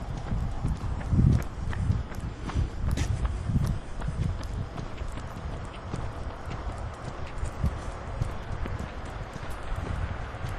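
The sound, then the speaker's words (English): Quick footsteps of a person running on a sidewalk come as a steady rhythmic patter of hard slaps over continuous street noise. “Somebody running up behind us here.”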